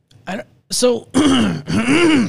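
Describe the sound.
Throat clearing to dislodge a piece of phlegm, heard as a few strained, groan-like voiced bursts that grow longer and louder toward the end.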